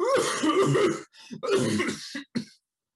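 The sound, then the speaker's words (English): A man imitates a bad hacking cough with harsh, raspy, throaty bursts: a long rough hack, then several shorter, choppier ones trailing off. There is no other sound. “is coughing terribly today. He's like hacking badly, like”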